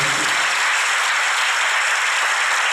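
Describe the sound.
Applause from an audience at a Buddhist temple gathering celebrating the Laba porridge festival: dense, steady clapping that holds at an even level throughout, with no voices.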